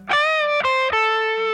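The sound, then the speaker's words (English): An electric guitar riff played with heavy distortion: a few bright, sustained notes that step down in pitch, each struck sharply and ringing on loudly, with no voices. “the riff you expect that every guitar player knows sounds like this.”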